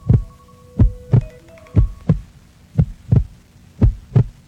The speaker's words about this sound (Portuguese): Ao som desse coração.